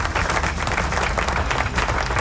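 Applause fills the entire short stretch: thick, continuous clapping at a strong, steady level with no pauses.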